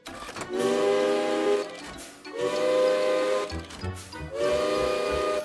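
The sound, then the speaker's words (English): An alarm clock built from old railway engine steam whistles, set outside a workshop that was once a windmill, sounds three long, loud, chord-like whistle blasts with breathy steam hiss, separated by short pauses. “Ruth made an alarm clock using steam whistles from an old railway engine. When the alarm goes off, it sounds like this.”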